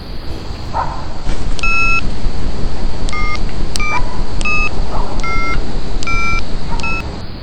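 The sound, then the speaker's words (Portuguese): A telephone is dialed to call emergency services, giving a series of short, clear keypad tones in steady succession over a constant background hiss, with no talking. “Bora, bora ligar pro SAMU.”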